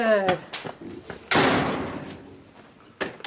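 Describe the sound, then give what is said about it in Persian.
A door slams shut once with a sharp, loud bang whose rumble trails off over the next second or two. A brief voice comes before it, and a light tap sounds near the end. “برو درو ببند بیا تو”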